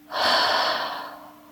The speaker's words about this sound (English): take a deep inhale through the nose. Exhale through the mouth.